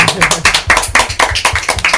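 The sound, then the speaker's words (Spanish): Rhythmic clapping from a group answering a call for applause, sharp even claps at a brisk, steady beat that keeps going throughout. “así que un aplauso por la gente que no somos nosotros y que mola.”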